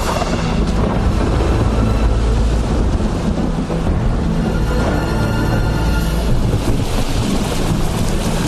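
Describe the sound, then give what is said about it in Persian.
Wind roars at sea aboard a sailing ship, a loud, unbroken rushing blast with heavy low rumble and gusty buffeting that stays constant throughout. “سخت نگیر، این که چیزی نیست، فقط یه نسیم ملایمه.”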